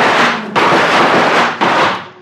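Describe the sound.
Gunfire as defenders in a tree shoot at attacking elephants: loud, dense, noisy blasts that run together, with sharp fresh bursts breaking in three times.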